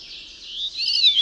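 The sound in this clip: A white-bellied bird's call, played from a video, is a shrill, hissing, high-pitched sound heard alone, growing louder and slightly higher toward the end.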